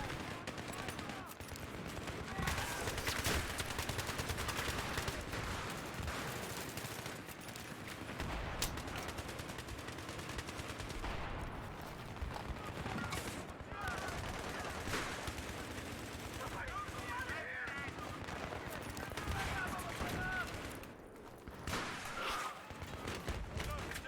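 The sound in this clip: Automatic gunfire in a video game shooter, sprayed blindly through a smoke cloud: long, dense bursts of rapid shots with heavy thuds, running almost without pause and staying loud throughout.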